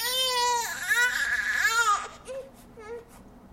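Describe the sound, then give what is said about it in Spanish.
A baby cries in a few long, high, strained wails, then tapers off into softer, shorter whimpers. “A los padres y madres que se levantan cuando su hijo llora.”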